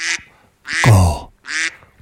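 Duck quacking in a jingle for a radio news segment: three loud, nasal quack bursts, the middle one longer and deeper, with short gaps between them.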